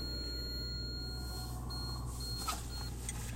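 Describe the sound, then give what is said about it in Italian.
A car's passenger-seat warning alarm, set off by a backpack resting on the seat, gives intermittent high-pitched beeping tones over a steady low rumble inside the car. “Mentre suona uno strano allarme, probabilmente la macchina è convinta che io abbia un passeggero nel sedile accanto, in realtà è il mio zaino.”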